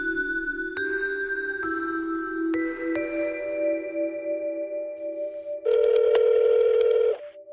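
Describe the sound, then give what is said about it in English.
Telephone dialing tones: steady electronic tones that change pitch every second or so, then a pause and a louder, brighter tone lasting about a second and a half. “So let's dial up Lori and have that conversation.”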